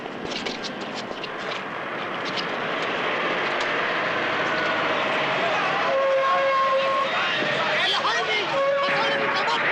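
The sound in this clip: Trucks roll along a road in a dense, steady rumble that grows slightly louder, with a few tonal sounds near the end and voices talking over it.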